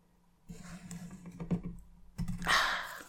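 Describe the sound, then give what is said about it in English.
Clicking of a little button on a small electric-shock device, a few sharp, faint clicks mixed with soft rustling handling noise. “If I press this little button on this device over here, see?”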